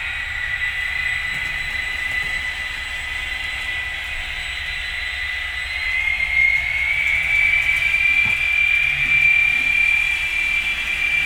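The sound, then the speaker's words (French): A locomotive's turbocharged engine in a train simulator video game: a continuous low mechanical rumble carries a thin, high turbo whistle that drops out briefly, then returns slightly higher as the engine grows a little louder. “On retrouve un peu le seul inconvénient de cette locomotive, c'est son turbo qui est très présent tout de suite.”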